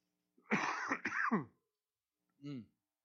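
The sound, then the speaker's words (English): Throat clearing and a cough from someone with a persistent frog in the throat: a rasping two-part clearing, then after a short pause one brief cough, with no other sound around them. “I'm going to have to cough here in a moment, but I'm going to take a cough drop first.”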